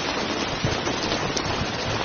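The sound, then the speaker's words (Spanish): Steady rain falling outside a door, an even, unbroken hiss of drops with no distinct pattering peaks and no voices. “¿Puedo pasar? No. Es que está lloviendo.”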